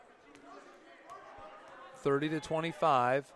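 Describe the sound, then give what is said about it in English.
A basketball is dribbled on the court during a high school boys' game, Amity against Blanchet, as a player runs down the clock. The faint bounces sit beneath constant commentator talk and crowd murmur. “They're going to let Carton dribble this down to 50 seconds.”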